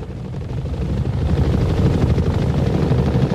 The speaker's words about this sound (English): The choppers approach the bridge.